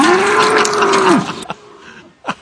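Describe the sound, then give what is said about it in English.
A bull gives one long, loud, low moo that bends downward in pitch as it ends. A few quieter, short sounds follow after it. “We don't have a cow. We have a bull.”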